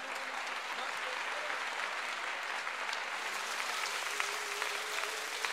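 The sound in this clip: A crowd claps in continuous, dense applause, quiet but steady, with no break for the whole stretch.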